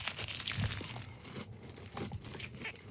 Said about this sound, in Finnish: Kaikki voi nyt kuunnella autoissa ja työpaikalla ja kotona, kuinka radiossa syödään.